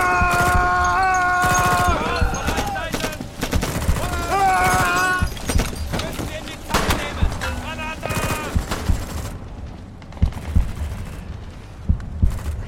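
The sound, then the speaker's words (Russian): Gunfire rings out in a war film battle scene as a soldier shoots at burning German soldiers climbing out of a tank. Sharp, irregular shots and bursts are mixed with shouting voices early on, then thin out to a few isolated shots. “Из танка вылезают горящие немцы. Иванов стреляет по ним.”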